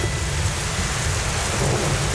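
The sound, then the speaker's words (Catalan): Heavy rain pours steadily with a low thunder rumble during an August outdoor music festival. The sound is a dense, constant wash of noise that stays level throughout. “quatre núvols inofensius s'han convertit primer en una mica de pluja i després en una tempesta”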